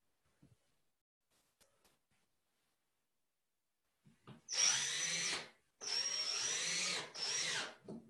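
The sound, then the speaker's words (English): Power drill driving screws into a hinge, heard as three loud whirring bursts, the last two separated by only a brief dip, after a few faint ticks and knocks. “I've got the drill down here. It's very exciting. And I've got some screws. And just give me a moment while I try and screw these first part of the hinge in.”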